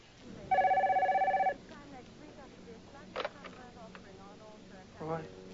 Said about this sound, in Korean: 전화를 끊자마자 전화벨이 또 울립니다.